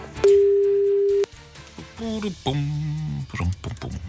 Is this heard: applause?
no